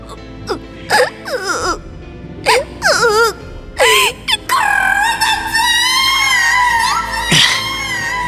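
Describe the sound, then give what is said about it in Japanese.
Loud wailing cries: several short, wavering sobs, then a long sustained wail that keeps rising and falling in pitch. “でっかい声で泣きおうてからに。”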